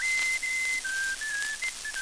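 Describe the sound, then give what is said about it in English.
A person whistles a short tune alone: a long, steady high note, then several shorter, slightly lower held notes with brief gaps between them, clear and fairly loud. “quit that whistling”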